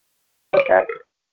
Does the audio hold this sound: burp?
yes